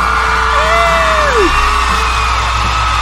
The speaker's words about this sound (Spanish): El público enloquece. Y quieren más de Maestro Anime.